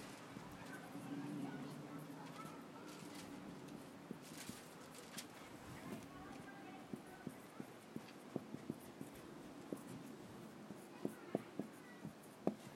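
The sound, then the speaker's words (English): Marker or chalk scratching on a board during a talk, with a voice speaking over the first part and a scatter of small sharp taps and strokes growing more frequent toward the end. “I mean, my writing, I know, is not the greatest, but I'm writing kind of small, too.”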